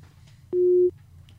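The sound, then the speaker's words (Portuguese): Telephone busy tone after a dropped call: one steady mid-pitched beep, clear and fairly loud, over a low background hum. “acho que caiu aqui a ligação. Vou pedir para o Dilácio refazer a ligação com, com o Drummond.”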